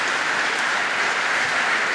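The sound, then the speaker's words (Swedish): A concert audience applauds after a Bach partita performance. Steady, dense clapping fills the whole stretch at an even, loud level, with no distinct voices standing out. “Ja, ni hör. Jubel blir det.”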